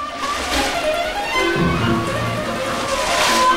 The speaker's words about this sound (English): The Goonies each hurtle down a long underground water slide.